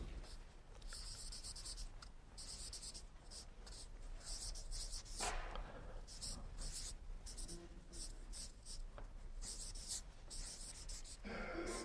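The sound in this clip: Writing on a board, many faint scratchy strokes in quick irregular bursts over steady low background noise.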